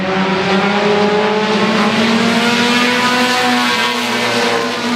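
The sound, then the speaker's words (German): Race cars roar around a short race track in North Carolina, a loud, continuous engine drone with steady, high-pitched whining tones that hold throughout. “Autorennen sind tatsächlich sehr beliebt in North Carolina und auch so eine Art kulturelles Aushängeschild des Bundesstaats, kann man sagen, oder? Ja, wir waren da auf einer Kurzrennstrecke.”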